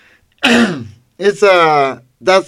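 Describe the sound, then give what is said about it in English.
Throat clearing comes as a few loud, rough, voiced bursts, each a harsh rasp that carries a throaty tone. “Sorry, people, that I clear my throat.”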